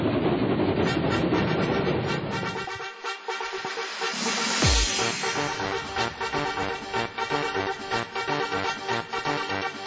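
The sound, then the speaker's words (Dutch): A train passing by, a loud, continuous rumbling roar with a rhythmic rattling clatter of wheels that swells and stays heavy throughout. “En ik hoop dat de trein voorbij komt.”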